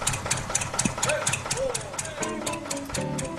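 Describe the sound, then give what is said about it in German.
An old two-stroke diesel tractor engine runs while parked in front of a barn. It gives a loud, steady, rhythmic chugging pulse throughout, with other tonal sounds layered over it. “Der Beat kommt vom Trecker, weiß ich, 2-Takt-Dieselmotor.”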